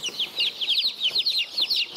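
Colourful mixed-breed chicks and chickens call in a rapid stream of high, thin peeps, many overlapping notes in quick succession at a fairly soft, even level.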